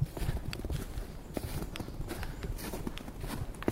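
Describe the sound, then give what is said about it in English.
Footsteps crunch across crisp snow on a winter day, many soft, gritty steps falling in a steady walking rhythm, fairly faint and heard alone. “It's a beautiful winter day, and the crisp snow is beneath my feet.”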